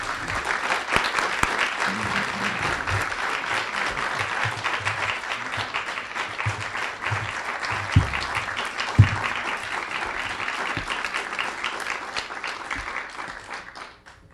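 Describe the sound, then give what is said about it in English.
An audience applauds a poet, the 2017 writer-in-residence, being introduced at a reading. Dense, sustained clapping runs throughout with a few sharper claps standing out, then fades away near the end. “please join me in welcoming the 2017 Diana and Simon Rabb Writer-in-Residence, Yusuf Komunyakaa.”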